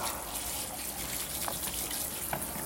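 A shower runs water in a steady, even hiss of spraying water, quiet and unbroken throughout.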